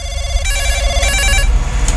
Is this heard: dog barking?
no